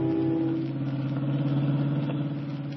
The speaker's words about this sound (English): Otherwise, why are you riding with George Flint, detective, in his hot rod jalopy?